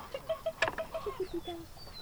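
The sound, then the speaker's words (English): Hens cluck as they are fed sunflower seeds, giving a quick series of short, pitched clucking notes with one sharper burst early on, moderately quiet, with no talking. “Leslie Suter is feeding her chicken sunflower seeds”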